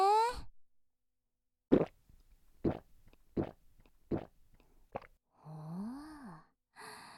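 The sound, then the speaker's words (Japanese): Gulping of straight whisky downed in one go: a short vocal sound, then five sharp, evenly spaced swallowing gulps, followed by a voiced, sighing exhale and a brief final vocal note. “じゃあとりあえずこのウイスキーをストレートで一気してもらおうかな。はーい、飲んで飲んで。”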